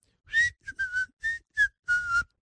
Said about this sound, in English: I'm going to walk down the driveway whistling